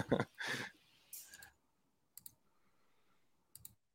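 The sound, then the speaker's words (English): Mouse clicks: two quick double clicks, crisp and faint, separated by a short pause of near silence, following some soft breathy noise at the start. “So let's click that real quick.”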